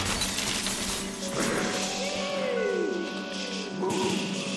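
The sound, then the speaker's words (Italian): A chandelier crashes to the floor and shatters in a dense, sustained clatter of breaking glass, with ringing, sliding tones from the pieces threaded through the noise. “La mia testa incontra sulla sua traiettoria proprio il lampadario, che cade a terra in mille pezzi.”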